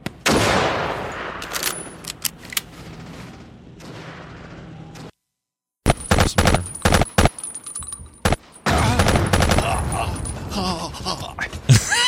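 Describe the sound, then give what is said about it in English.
Gunfire in a 2002 video game crackles in bursts of shots and heavy booms. The volume breaks off briefly into silence before the shooting resumes, loud and dense. “All right, here comes just some gameplay. Some distance shooting. Guys just running. And then now 2002. Some action.”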